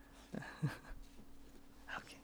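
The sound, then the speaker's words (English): A pet dog gives a few short, sharp barks or yelps, moderately loud, separated by brief pauses, with a longer gap before the last one. “Hey. Sorry, that's my dog.”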